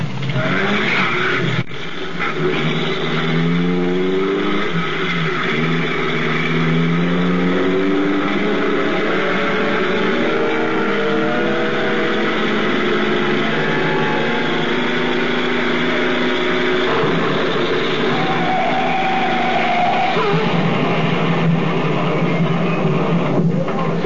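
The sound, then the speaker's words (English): A car engine racing hard as the car speeds to crash through a roadblock, a loud, continuous roar with revving that climbs in pitch, mixed with squealing tires. “I'll create a little diversion for you. What are you going to do, Ken? Just what Jimenez hopes I'll do. Try to crash that roadblock.”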